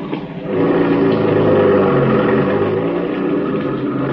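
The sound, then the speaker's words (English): A car engine drones as the driver makes a U-turn on a road. The low, steady rumble swells after a brief quieter start, then holds at an even level with slight wavering. “I hope there wasn't no cop seen me make that U-turn.”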